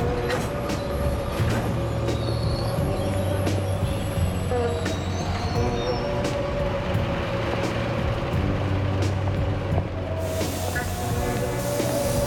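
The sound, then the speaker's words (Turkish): A Bratislava-to-Munich train pulling in at a station platform: a continuous loud rumble of rolling wheels, with thin high metallic squeals and steady tonal hums running over it. “Bratislava'dan Münih'e giden 681 numaralı tren şu anda T peronuna yanaşıyor.”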